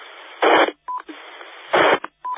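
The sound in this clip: Bursts of radio static from a handheld walkie-talkie after its microphone is released, two loud hissing noise bursts, each followed by a short, steady beep tone.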